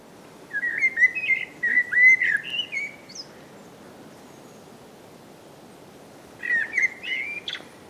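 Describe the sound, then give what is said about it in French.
Recorded bird song is played back at a bird-ringing station to draw in migrating birds. Bright, whistled chirping phrases repeat for a few seconds, stop, and return as a shorter burst over a quiet background. “c'est pas un merle, c'est la repasse. Hein. On utilise de la repasse pour attirer les oiseaux autour de la station de bagage.”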